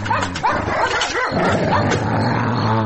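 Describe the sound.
A dog barks and yips over continuous background noise. A few sharp, pitched barks come early, followed by ongoing yelping.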